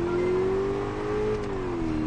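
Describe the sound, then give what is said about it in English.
A car engine revs steadily in a road race in an Xbox 360 video game, a continuous loud buzzing drone whose pitch climbs slightly, holds, then dips near the end. “Obviously, a road race is too much for the Xbox 360.”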